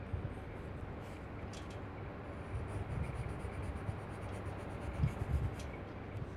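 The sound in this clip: Pencil drawing on paper gives faint, continuous scratchy strokes over a steady low background rumble, with no talk.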